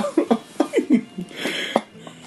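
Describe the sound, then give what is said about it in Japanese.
Coughing and sputtering after someone spits out a mouthful of coffee, heard as a rapid string of short, sharp, throaty bursts that fade into quieter breaths. “そいつさどうなんかそいつさ今コーヒーを吹き出しましたけどああ最悪”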